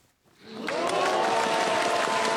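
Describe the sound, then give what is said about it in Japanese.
Applause and cheering erupt at a public viewing in Nara Prefecture, swelling quickly from near silence into a loud, dense roar of clapping and voices that holds steady to the end. “地元の奈良県で行われたパブリックビューイングで、登録が正式に決まると大きな拍手と歓声が沸き起こりました。”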